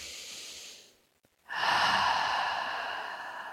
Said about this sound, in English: Okay, taking that deep breath.